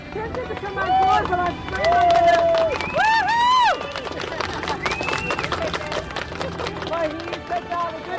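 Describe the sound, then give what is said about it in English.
A crowd cheers to welcome a rower arriving in port after weeks at sea, with whoops, shouts and scattered clapping in a busy, lively din of many voices. “Alex Ransby has finally made it into port, and here's what the welcoming sounded like.”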